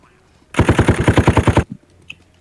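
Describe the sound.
An AK rifle fires in a video game: a rapid automatic burst of many evenly spaced, punchy shots lasting about a second. A faint click follows in the quiet afterward.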